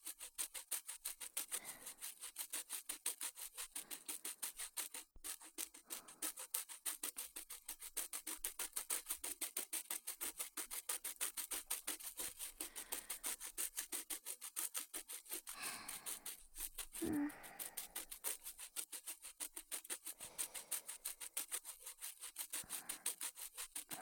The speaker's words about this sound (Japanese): 誰かの歯を磨いてやるのも楽しいものだな。